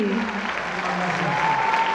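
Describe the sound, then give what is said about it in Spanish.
Standing ovation from a festival audience for a jazz orchestra at an international bolero and jazz festival: sustained, even applause with a few voices rising above the clapping. “¡Qué momento tan hermoso! El público aplaudiéndoles de pie.”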